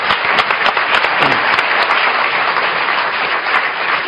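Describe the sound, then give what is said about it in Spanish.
Studio audience applause on a quiz show after a contestant's correct answer: loud, dense clapping that holds at an even level for about four seconds, alone with no talk. “un aplauso”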